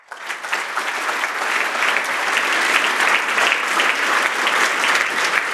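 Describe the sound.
Audience applause welcomes a speaker to the stage before a talk on preserving arcade games: dense, continuous clapping from many hands that swells within the first half-second, then holds steady and loud to the end with no voices.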